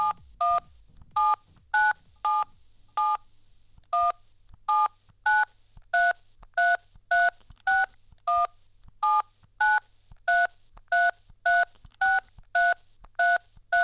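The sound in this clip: Touch-tone telephone keypad beeps dial a long number for a call to Sweden. The many short, evenly pitched tone pairs come in a brisk, slightly uneven sequence with one brief pause early on.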